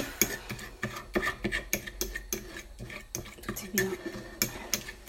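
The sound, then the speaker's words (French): Flax seeds are ground in a device that makes rhythmic rattling, ratchet-like mechanical bursts, many short grinding pulses with brief gaps between them. “Donc c'est important de broyer en fait les graines de, lin en particulier”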